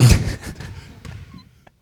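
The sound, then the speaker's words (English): Low, dull thumps of a basketball bouncing on the court as a Dahlias player readies a free throw in a basketball game, the hits blurring into steady background noise that fades after about a second and a half. “Dahlias will get a free throw here. 20-18 in favor of the Dahlias.”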